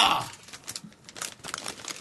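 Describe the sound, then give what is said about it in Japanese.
A small paper bag, the kind that holds napkins, is handled with faint crinkling and rustling in irregular, soft bursts. “わ あ、ナプキンが入るような紙袋ですよこれ。”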